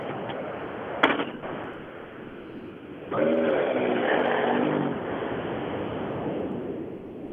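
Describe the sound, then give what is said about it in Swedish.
A rally car's engine as it approaches the time control on a rally stage, a continuous rough roar over steady noise that swells into a louder, wavering revving note midway, with a sharp crack heard near the start. “Nästa bil in i TK på väg fram emot dig då.”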